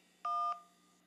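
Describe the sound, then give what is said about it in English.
A single telephone keypad tone for the digit 1, pressed to accept an incoming call at an automated prompt: one short, steady two-note electronic beep, loud and alone, that cuts off cleanly. “To accept, press 1. I pressed 1.”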